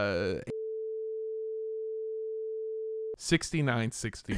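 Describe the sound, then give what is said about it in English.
A censor bleep covers a spoken phone number: a steady single-pitched tone of about two and a half seconds. Talk is heard just before and right after it. “I'll bleep it out before I send you the file.”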